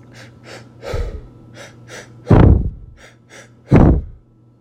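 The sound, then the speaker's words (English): Rapid, rhythmic breathing exercise at about one full breath cycle per second, a quick string of short, airy huffs with two much louder, sharper breaths standing out among the softer ones, no talking. “maybe quicken the pace. So one full breath cycle per second, or close to.”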